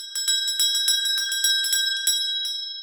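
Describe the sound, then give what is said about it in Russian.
A small hand bell taken from a desk rings in a quick run of many bright, high, metallic strokes, each leaving a clear ringing tone, with the final strike left to fade out alone. “улыбнулся царь и взял со стола стоящий тут же небольшой колокольчик.”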